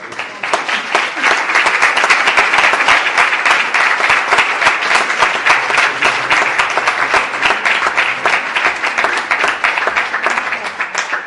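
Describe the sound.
An audience applauds at the close of a talk session, a loud, dense burst of many hands clapping that rises fast and holds steady for about eleven seconds, with no talk.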